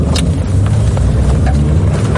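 A vehicle drives fast along an exposed front-line road in Ukraine while carrying soldiers and supplies to positions. Its engine and road noise make a steady, loud, low rumble throughout, with no talk.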